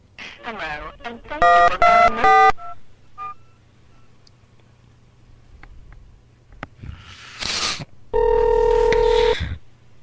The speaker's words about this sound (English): I didn't dial the same number again.